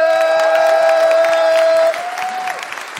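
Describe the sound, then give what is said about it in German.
An audience gives small applause with some cheering, dense clapping under a steady held tone, fuller for about two seconds and then dropping quieter. “Ich habe gesagt, einen kleinen Applaus.”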